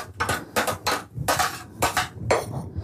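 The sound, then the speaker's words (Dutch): Washing up of kitchen utensils after grating fennel, a series of a few bright clattering, splashing bursts separated by brief pauses, heard alone without talk. “We gaan de rest een beetje afwassen.”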